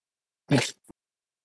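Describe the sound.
Throat clearing by a man who feels something in his throat: one rough, harsh burst followed by a much shorter, quieter catch, heard alone.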